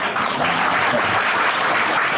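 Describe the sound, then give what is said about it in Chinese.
Lukewarm audience applause: a thin, steady patter of clapping that holds an even level for about two seconds, with no cheering. “好像没人想去玩的，鼓掌不热烈，说明没人想去玩。”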